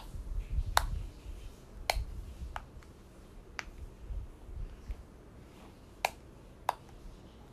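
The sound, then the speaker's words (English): A triple dimple fidget toy gives sharp, snapping pops as it is pressed. Several crisp clicks land at irregular intervals against a faint, quiet background. “triple dimple. So I have one over here. It has really loud pops. I'm gonna let you hear that.”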